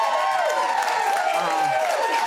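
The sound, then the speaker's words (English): A small, enthusiastic studio audience at ABC in South Bank cheers and applauds, a continuous wash of clapping with whoops and excited voices rising through it, steady and fairly loud. “Absolutely, an intimate audience, yes. However, it should be said, a very enthusiastic audience.”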